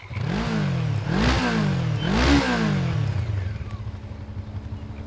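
A small electric motor on a rowboat surges three times in quick succession, each whine rising and falling in pitch, then settles into a steadier, lower hum.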